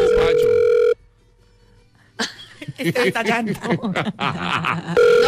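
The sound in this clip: A telephone ringback tone plays on a call that goes unanswered, with a ring burst at the start and another at the end and people talking in between.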